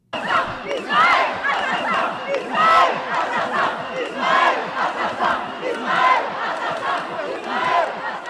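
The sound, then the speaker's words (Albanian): Protest crowd chanting for Palestinians in Gaza in a neighborhood of northern Paris, many voices joined in loud, rhythmic chants that swell and ebb continuously. “Në lagjin barb të Parisit verior, turmat e emocionuara valvistin flamuj palestinez dhe mbani në duar parulla me thirret për t'i dhënë fund dhunës që ka vrarë qindra civil”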